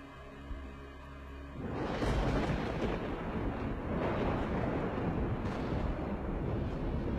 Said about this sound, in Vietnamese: Sau đó là tiếng sấm long trời lở đất vang lên.